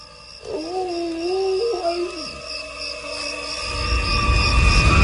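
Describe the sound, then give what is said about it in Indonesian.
An animal's howl, a long, wavering mid-pitched call lasting about two seconds over a low steady hum, then breaking off as a rushing noise swells toward the end. “Sesekali ku dengar dia seperti melolong.”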